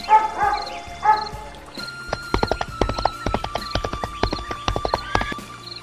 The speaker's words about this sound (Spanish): el galope de caballo